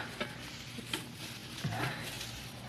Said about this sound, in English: the kind that make a lot of smoke when they burn. Hey, yeah, plenty on these bushes right outside the window here. Now, I'll just stuff them in the stove.